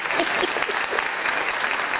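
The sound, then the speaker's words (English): Steady applause fills the whole clip: dense, even clapping with no clear pauses and no voices on top. “I think that deserves a round of applause.”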